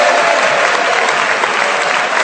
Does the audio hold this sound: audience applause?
yes